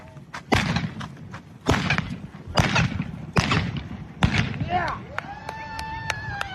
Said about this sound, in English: shoot 5 rounds of blanks from 2 different pistols while riding at breakneck speed on a horse